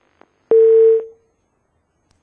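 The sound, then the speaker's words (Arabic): A telephone line cuts off, leaving a single steady electronic tone that lasts about half a second. A brief click comes before it, and the tone trails away into silence. “نأسف لانقطاع الخط كما سمعتم”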